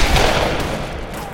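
Gunfire erupts from several guns as a line of attackers charges, making a dense, loud, continuous barrage of overlapping shots with no clear gaps.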